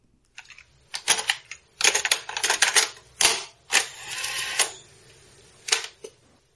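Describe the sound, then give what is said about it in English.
Plastic clicks, clacks and rattling as a cassette tape is handled and loaded into a player, coming in several irregular bursts with a brief steadier mechanical rattle partway through. “let's load this tape up and listen in.”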